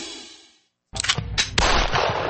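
Gunshots ring out at a shooting range: after a brief silence, several sharp, loud cracks come in quick succession, followed by dense, ringing noise that carries on to the end.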